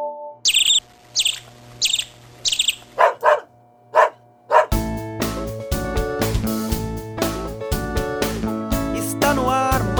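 A dog gives a few short, sharp barks after a run of four bird chirps, and then music with a steady beat starts up and plays on alone.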